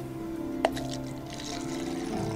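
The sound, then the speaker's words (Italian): A voice imitates wine being poured into a glass, a humming tone with a sharp click near the start, followed by soft gurgling noise. “E versiamo il vino nel bicchiere.”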